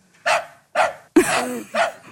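A dog yaps on command, giving four sharp, evenly spaced barks, the third slightly longer and rougher than the rest, with no other sounds around them.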